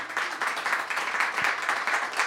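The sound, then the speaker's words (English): Applause from an audience greeting a guest: fairly faint, continuous clapping that swells and dips in a loose rhythm, with no talk over it. “How about a round of applause for Daniel?”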